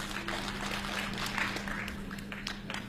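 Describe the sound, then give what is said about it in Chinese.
Audience applause ahead of a Shaanbei folk song performance, a faint, diffuse patter of clapping spread evenly through the moment, with a low steady hum running underneath. “再来点掌声， 哎，这怎么还在要掌呢？ 来点掌声”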